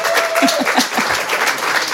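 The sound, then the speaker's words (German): Welcome applause from a studio audience greeting two guests as they arrive on set, dense and steady clapping that fills the full two seconds at an even, loud level. “Ich bitte Sie um einen Begrüßungsapplaus”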